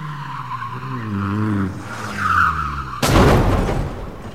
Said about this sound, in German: Molly rannte aus dem Haus durch die Vordertür und die Auffahrt entlang zu ihrem Auto und brauste Tess in ihrem Morris hinterher.